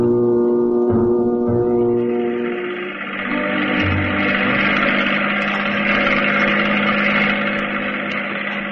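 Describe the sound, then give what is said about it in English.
A speedboat engine throttles down and the boat glides in beside an offshore gambling ship. A steady layered motor drone drops after a few seconds and gives way to a broad, continuous hissing rush. “The speedboat slows down and then glides gently in alongside the gambling”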